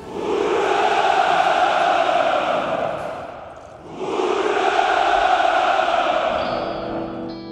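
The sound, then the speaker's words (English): A crowd cheers and rejoices in two long swells of roaring voices, with a short dip between them. “All of this, of course, is being done in the spirit of helping a poverty-stricken population. And the population is rejoicing.”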